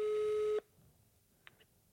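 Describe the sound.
A telephone ringing tone sounds while a call is being placed: one steady electronic tone lasting about half a second, then it stops abruptly and leaves near silence.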